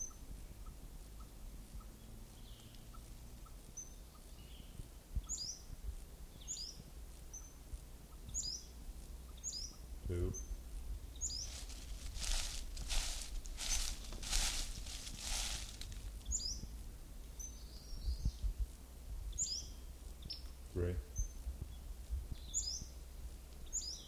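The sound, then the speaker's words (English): Western flycatcher calls: many short, high chirps repeat at a steady pace through the whole recording, with a brief burst of broad hissing noise partway through. “Western flycatcher number one.”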